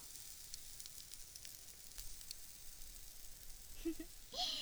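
Meat sizzling on a grill: a faint, steady hiss with scattered small crackles and pops.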